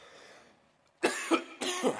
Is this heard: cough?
yes